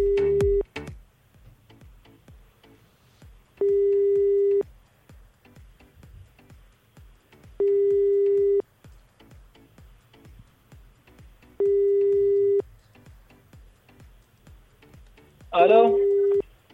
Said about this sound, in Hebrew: אנחנו מחייגים.